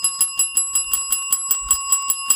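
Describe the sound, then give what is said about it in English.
A bell rung again and again in quick, evenly spaced strikes, each a bright metallic ring with a sustained high tone running under the whole burst, loud and alone with no talk. “I can't find the bell. Where's the bell? Hold on, it's right here.”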